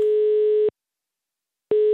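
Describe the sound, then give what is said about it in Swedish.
Telephone ringing tone heard while calling a farm supplier to ask about sugar beet sowing in mid-April: a steady, buzzy mid-pitched tone sounds in two bursts separated by a silent gap, with no voices. “Jag tänkte allra först att vi skulle ta och ringa till AgriCenter och höra hur läget är med betsådden så här i mitten på april.”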